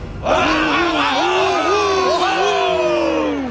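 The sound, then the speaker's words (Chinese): A crowd of story characters cheers and shouts in excitement. The loud massed voices burst in right after the start and hold at full strength to the end, with whooping, rising and falling pitch. “台下的黑白动物们沸腾了起来，他们挥舞着自己的双手，兴奋地呐喊道：“ 大地有气，大地有气！””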